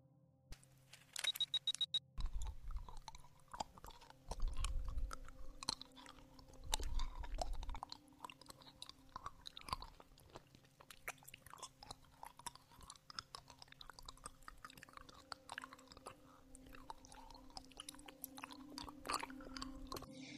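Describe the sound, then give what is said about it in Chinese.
Soft, close mouth sounds of someone eating a lollipop: faint wet clicks and sucking run throughout, with a few louder crunchy bursts in the first half. “可以和你分享我的棒棒糖，人家超级喜欢吃棒棒糖的呢”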